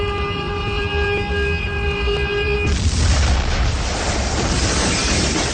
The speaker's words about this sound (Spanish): Estalla apocalíptica sobre la escalinata de la catedral. Los vidrios del imponente rosetón rompen y vuelan sobre la vereda de calle 14.